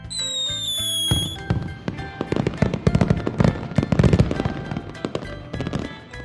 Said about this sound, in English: And to top it all off is the fireworks display.